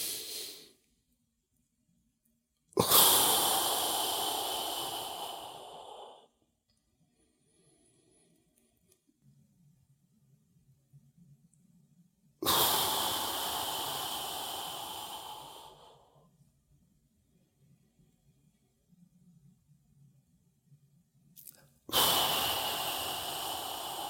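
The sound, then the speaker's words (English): Forceful exhales blown out around the tongue, its tip held on the ridge behind the upper front teeth, during a yogic breathing exercise. Two long, loud, airy breaths out, each fading over several seconds, with quiet gaps between and a third exhale starting at the end. “you blow air out around it. So it looks like this.”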